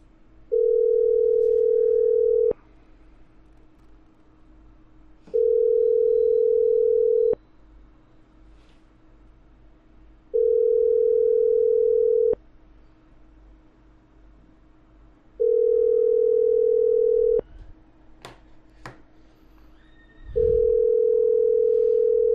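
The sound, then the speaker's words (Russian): A phone call rings out unanswered: five long, even ringback tones, each about two seconds, separated by pauses of about three seconds, with faint clicks and rustle near the end. “Вот я ему звоню, он, сука, не берет трубку. Давай сейчас еще раз зло для тебя наберу.”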